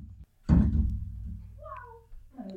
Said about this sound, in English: It very nicely lined up with the noise he made with his bottle, though.